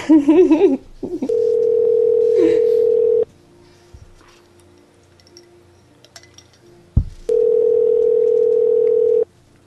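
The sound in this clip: An internet call rings with no answer. A brief warbling tone opens, then two long, steady, mid-pitched ringing tones sound alone, separated by several seconds of near silence.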